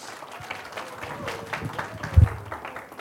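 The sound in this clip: Audience applause welcoming a pastor up to speak: a steady, dense wash of clapping that lasts throughout, with a brief louder burst near the end.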